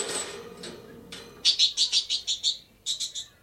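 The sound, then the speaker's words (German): A budgerigar chirping, bright high-pitched chirps in quick succession, a few faint calls first, then a loud rhythmic run of seven and, after a short pause, three more. “Der Vogel ist hinausgeflogen.”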